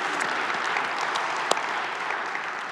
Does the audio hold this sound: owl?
no